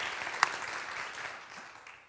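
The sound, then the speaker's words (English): An audience applauding during a church service: faint, diffuse clapping with one sharp, distinct clap near the start, gradually thinning and fading toward the end. “So let's celebrate and applaud this glorious day.”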